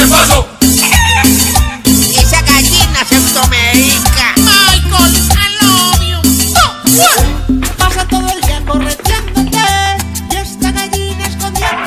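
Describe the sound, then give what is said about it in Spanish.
A hen clucks and squawks loudly in dense, repeated bursts for about twelve seconds, with calls close to crowing mixed in. “Y la gallina suena así.”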